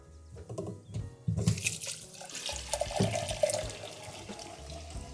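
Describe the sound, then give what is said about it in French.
About four litres of water poured into a cooking pot for a spiced broth: a fairly quiet, sustained splashing gush begins after about a second and continues to the end. “C'est parti, on va verser à peu près 4 litres d'eau dans une marmite.”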